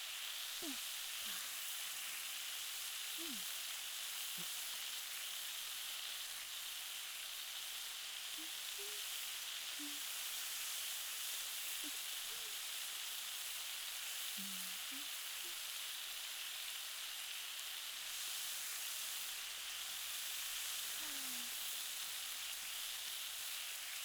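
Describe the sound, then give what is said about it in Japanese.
Meat frying in oil in a pan as it is turned to cook the other side, a faint, steady sizzling hiss with a few soft scattered pops. “じゃあ油を少し足して反対面もしっかり焼きましょう。”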